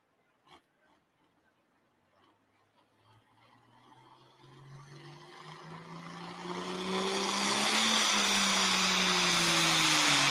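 A White Farm Equipment tractor in the super farm class roars under load at a tractor pull in Iowa. The engine starts quiet and swells steadily into a loud, sustained, droning roar whose pitch climbs as it builds.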